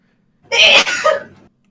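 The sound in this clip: A single loud sneeze, alone against silence: a sharp, bright burst that trails off into a softer breathy tail.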